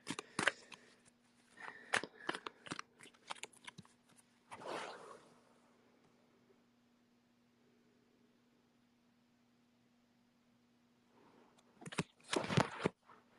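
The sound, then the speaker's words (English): Tarot and oracle cards being shuffled and drawn, the oracle deck being Work Your Light, give short papery rustles and flicks in a few bursts, then a long quiet stretch over a faint steady hum, and a final flurry of card sounds. “So I'm going to just pull two cards and the first one's going to be from Tarot and the second will be an Oracle card from Work Your Light by Rebecca Campbell. As long as I don't dump them all on the ground.”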